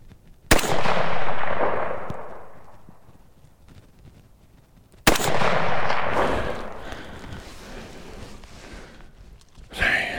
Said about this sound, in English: I don't think I hit it on the first shot.